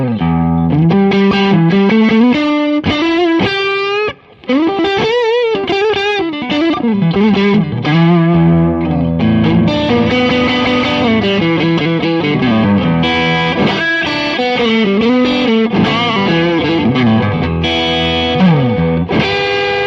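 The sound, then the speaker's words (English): Electric guitar played through an amp's distortion dirt channel for a bluesy tone, loud gritty riffs and chords with bent, wavering notes, continuous except for one brief gap early on. “Let's put on the dirt channel and let's do a bit of fun with that.”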